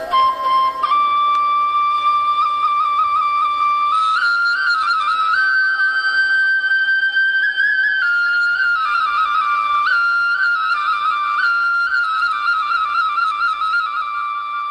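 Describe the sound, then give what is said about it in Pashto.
A shepherd plays a flute while leaning against a large rock beside his flock, a clear, sustained melody of long held notes stepping up and down. The flute is loud and steady throughout, alone, with no voices. “خو د دغه رمې شپونکي بیا دلته یوې لویې تیږې ته ډډه لګولې او شپېلۍ ژغوي.”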